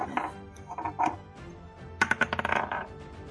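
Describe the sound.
Dice clatter across a table during a tabletop role-playing game: a few scattered knocks at first, then a quick burst of many sharp, rattling clicks as the dice tumble and settle.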